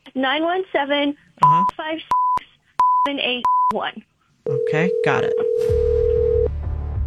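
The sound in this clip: Telephone tones sound while a call is dialed: several short, evenly pitched beeps with sharp clicks between them, then a long, steady, lower tone. People talk over and between the tones.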